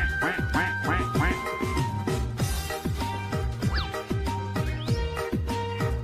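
Repeated duck quacks ring out over rhythmic music with a steady beat and deep bass notes.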